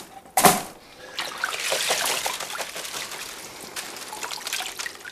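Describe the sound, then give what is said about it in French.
Water trickles and drips off something just lifted out of water. A sharp knock comes first, then a steady, many-dropped patter of runoff continues to the end. “Fais un peu égoutter. Sors de l'eau.”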